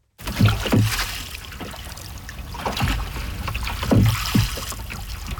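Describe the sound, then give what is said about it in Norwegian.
Oars stroke through water as a boat is rowed, giving a few rhythmic splashing pulls over a constant wash of swirling, trickling water. “Det var lyden av åretak.”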